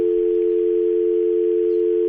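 A telephone dial tone sounds as one steady, unbroken hum at a single pitch, holding level and fairly loud for about two seconds with nothing else over it.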